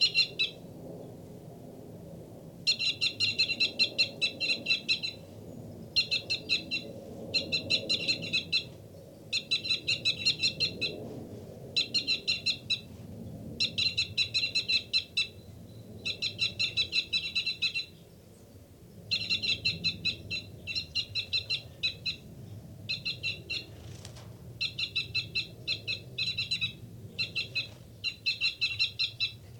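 Two birds give loud, repeated tooting calls: high, clipped notes delivered in rapid series and grouped into bursts with short gaps between them, continuing over a low, steady background rumble.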